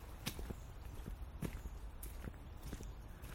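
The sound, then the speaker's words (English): Footsteps of someone walking up a set of outdoor steps, heading toward a small stream. The footfalls land as a steady series of soft thuds over constant low background noise, with no talk. “Walking up some steps.”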